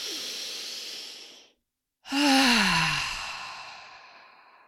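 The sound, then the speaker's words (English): A deep breath is drawn in with a steady airy hiss, followed by a short silent pause and then a long, loud exhale that ends in a voiced sigh falling in pitch. “Let's all take a nice big deep breath in together.”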